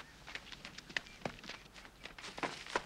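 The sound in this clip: Quick, faint footsteps of a person starting to run, heard as a series of light, irregular thuds and scuffs at a brisk pace over low background noise.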